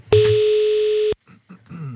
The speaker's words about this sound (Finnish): Nyt me soitamme ja selviää, että kuka siihen vastaa ja missä.